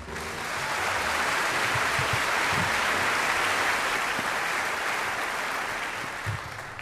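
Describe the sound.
Steady, sustained applause from the audience welcoming jazz pianist Mulgrew Miller, an even wash of clapping that holds throughout and tapers slightly at the end.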